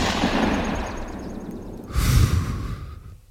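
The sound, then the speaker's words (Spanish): Gunshot sound effect in a Spanish-language radio drama: a single dull, muffled bang midway through, preceded by breathy, rustling noise and followed by a fading tail. “¿Pero qué hace, loco? Le he disparado.”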